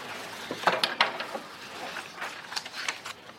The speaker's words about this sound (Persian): مالک سیگارش رو روشن میکنه.